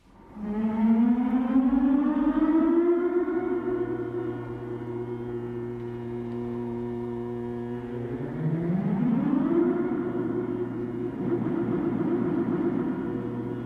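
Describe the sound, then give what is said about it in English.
Electronic air-raid-siren-like wails made with voltage-controlled generators. A rich tone rises and then holds, swoops upward again midway and sustains, all over a steady low drone. “I began to make sounds like air raid sirens.”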